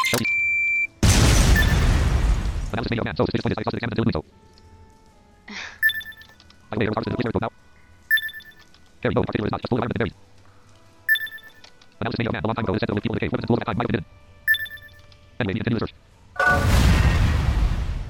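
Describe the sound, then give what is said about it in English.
Explosions in a video game: loud, broad booming bursts near the start and again at the end, with talk and short beeping electronic tones in between. “I'm gonna explode here.”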